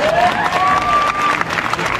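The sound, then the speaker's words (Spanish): Loud applause after a man dances a bolero at a family celebration, with dense, lively clapping from a small crowd throughout. “Un aplauso para don Babá”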